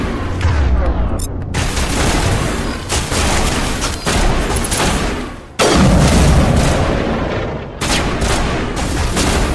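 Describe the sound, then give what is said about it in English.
Heavy, booming sniper rifle shots in a video game ring out, several loud blasts spaced a second or two apart, each trailing a long rumbling decay that runs into the next. “Alright, sniper rifle time.”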